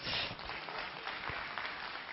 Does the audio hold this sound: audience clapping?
yes